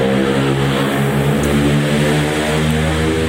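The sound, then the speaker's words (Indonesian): Loud, steady motorcycle exhaust drone on a street in Cirebon, where riders rev bikes with noisy aftermarket mufflers; a rough, sustained low engine roar with strong layered harmonics holds at a constant level throughout, with no voices. “sebenarnya rumah saya itu trek balap. Biasa orang Cirebon itu suka trek-trekan, knalpot bising tuh keren menurut mereka. Knalpot bising tuh sama dengan kecepatan maksimum.”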